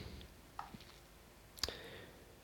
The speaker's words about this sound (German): wir klicken trotzdem mal durch